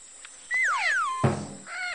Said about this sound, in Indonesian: ini namanya burung kakak tua.